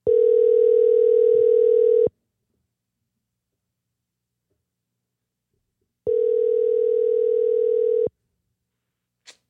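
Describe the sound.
Telephone ringback tone heard while calling someone: two long, steady, loud tones of about two seconds each, separated by a long silent pause, followed by a brief faint click at the end.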